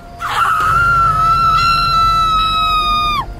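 A woman screams at night on a sandy trail near the sea in heavy wind. The single loud, high, sustained cry holds steady for about three seconds, then drops sharply in pitch as it breaks off over a low rumble.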